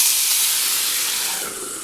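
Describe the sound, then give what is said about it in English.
Water poured into hot oil in a pan of searing food bursts into a loud, steady hiss of steam. The sizzle holds for nearly two seconds and eases slightly toward the end. “Now I'm going to add a little bit of water”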